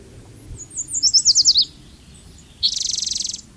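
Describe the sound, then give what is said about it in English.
A yellow warbler sings alone: a series of clear, high, slurred notes, a short pause, then a rapid, buzzy, high-pitched trill of many quick notes. “82, the yellow warbler.”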